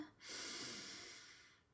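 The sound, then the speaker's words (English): A single long, deep inhalation during a guided relaxation breathing exercise, a steady breathy rush that swells quickly, then holds and slowly fades over nearly two seconds, with no talking. “Inhale deeply.”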